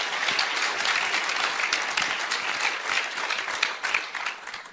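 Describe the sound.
An audience applauds the speakers at the close of a conference session, a steady dense wash of clapping that holds evenly throughout with no voices.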